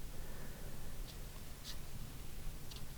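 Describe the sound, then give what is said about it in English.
Pen strokes scratch across paper while a rough coastline is sketched: a few short, faint scratching bursts over a steady background hiss, with no talk. “now I'll start with uh, the coast or just a rough sketch I can do the coast, uh, I can follow this”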